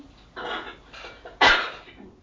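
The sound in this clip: A person coughing after swallowing a nut: three harsh, breathy coughs in quick succession, the last one sharpest and loudest.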